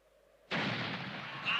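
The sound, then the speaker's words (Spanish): A single shotgun shot during a bird hunt in a dubbed 1945 film: quiet at first, then a sudden loud blast whose rough, broad roar carries on undiminished to the end. “¡Santo cielo! He cazado un ojeador. Hay que ser imbécil para ponerse delante de las escopetas. ¡Dejad de disparar!”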